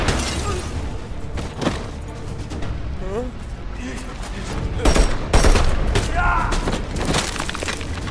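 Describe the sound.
Gunfire in a drama: several sharp, loud shots and bursts crack out at irregular intervals, with voices speaking urgently between and over them.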